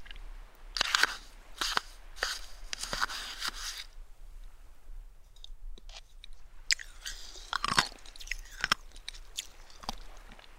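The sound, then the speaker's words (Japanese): Crunchy chewing of food while eating, heard as many irregular, sharp crackling bites and munches in uneven clusters, with brief quieter pauses between bursts and no talking. “もうちょっとゆっくり食べよう。”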